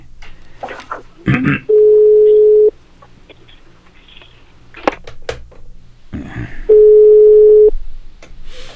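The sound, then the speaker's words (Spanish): Ringback tone while a telephone call connects: two steady, mid-pitched tones of about a second each, separated by a gap filled with clicks, rustles and short bursts of noise, with a voice briefly heard. “esperando que suene por acá, que enlace la llamada. No, ahí está ya.”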